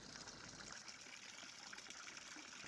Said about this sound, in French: Il est encore tôt, il n'y a pas tant de bruit dans les rues. On entend juste l'eau qui coule.